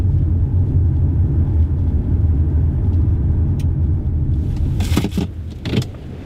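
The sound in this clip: Steady low engine and road rumble from a car on a 12-minute drive to Bottle Lake Forest. A few brief clicks and rattles rise over it near the end.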